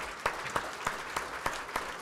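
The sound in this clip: Applause from an audience at a speech, a dense wash of clapping punctuated by steady rhythmic louder claps at a regular beat throughout.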